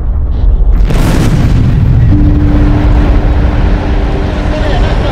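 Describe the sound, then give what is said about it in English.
Massive explosions at night come through as a loud, sustained low rumbling roar, with a heavier blast near the start. The booming continues to the end, and a faint steady hum joins partway through. “At night, massive explosions light up the darkness.”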